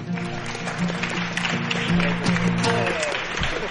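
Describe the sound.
Loud crowd applause for a band after a concert song in Valencia, a continuous roar of clapping with cheering voices and lingering tonal sound over it.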